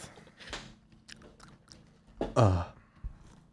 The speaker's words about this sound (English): It's salty. Ugh. I don't know why I spat it back into the... It's salty in licorice. I can't taste test that.